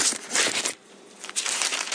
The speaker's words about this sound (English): this is a piece of mail, and it keeps falling out of my Bible